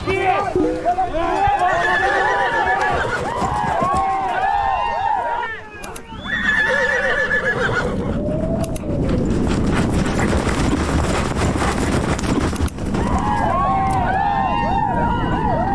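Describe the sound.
Horse whinnies and neighs repeatedly at a horse-riding outing, loud and nearly continuous with a brief dip near the middle, with people's voices mixed in.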